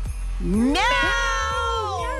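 Several people imitate a cat's meow together on a countdown, overlapping voiced meows that rise in pitch and hold, loud and sustained.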